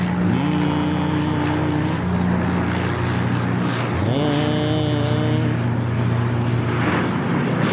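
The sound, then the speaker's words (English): A blimp's engine drone played as a comic stand-in for speech: a loud, continuous humming roar with strong tonal harmonics, its pitch shifting partway through, and no talk. “I can't wait for the blimp speech. I think it's going to sound something like this.”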